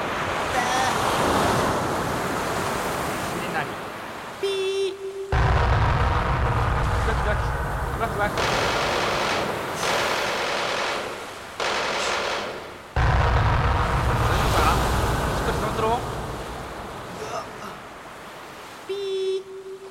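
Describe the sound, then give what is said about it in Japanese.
Tsunami waves rush in with a loud, continuous roar like surging surf and wind. The intensity swells and cuts abruptly several times, and brief voices sound over the water. “津波だ、逃げろ。”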